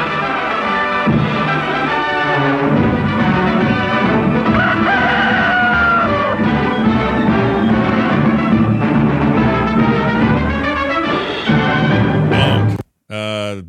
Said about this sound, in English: it had that like rooster sound and everything